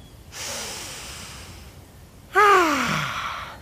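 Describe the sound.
A single deep breath: a long, steady airy inhale, a brief pause, then a louder exhale that turns into a voiced sigh falling in pitch.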